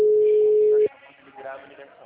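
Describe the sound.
A telephone ringing tone for a call that goes unanswered: one steady, loud, flat tone that cuts off sharply, followed by faint talk.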